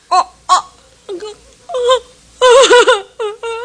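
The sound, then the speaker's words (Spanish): A woman cries and moans in a dramatic scene, her voice breaking into a series of short, wavering sobs and drawn-out wails that grow louder and longer toward the middle before ending in a few quicker, choked cries. “Me da igual que llores o que gimas.”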